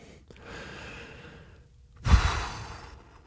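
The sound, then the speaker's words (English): A deep breath: a soft, airy inhale lasts about a second, then after a brief pause comes a louder, breathy release like a sigh. No one speaks. “So, take a breath.”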